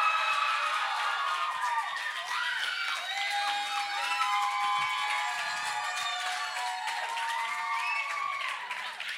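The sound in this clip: An audience cheers, whoops and applauds to welcome a group of women back from a mission trip to Cincinnati at a testimony night, a continuous, lively roar of clapping and high excited shouts.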